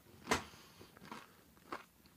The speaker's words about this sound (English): That might be the biggest bite anyone's ever taken on a pizza challenge.